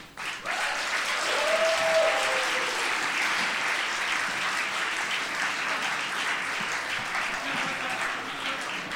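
Audience applause rings out on a stage for a courtroom-style comedy show as litigants are welcomed, a dense, steady clapping that swells quickly and holds for several seconds.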